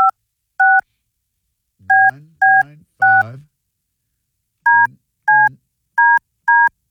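Telephone keypad tones from dialing a radio station's call-in number: nine short, steady dual-pitch beeps, two early, then three close together and four more after a pause. Some low buzzy sounds overlap a few of the tones.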